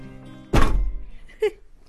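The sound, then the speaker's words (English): A heavy stack of books, the 2019 Booker Prize shortlist of about 3,000 pages, thumps down in one deep, loud thunk that fades into a short low rumble. “That's the sound of the 2019 Booker shortlist, all 3,000 pages of it.”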